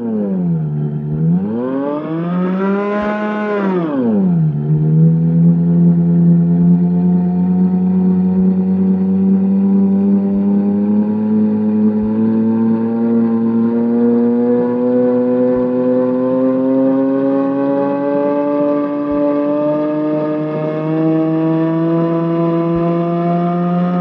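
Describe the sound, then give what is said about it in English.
A mechanical drone comes from a noise machine in which an abrasive wheel excites a string that resonates a drum head attached to an acoustic horn. It swoops up and back down in pitch early on, then holds a loud buzzing tone that slowly climbs. “they used an abrasive wheel to excite a string, which in turn resonated a drum head attached to an acoustic horn. Shifting pitches and portamenti were controlled by a lever located on the top of each machine.”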